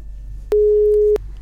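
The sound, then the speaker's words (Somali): A telephone busy signal sounds after a caller's line drops. It is a single steady, mid-pitched tone lasting well over half a second, clear and loud over a faint low background hum. “waan ka xumahay dhageystahan qadka telefoonka ayaa ka go-ay”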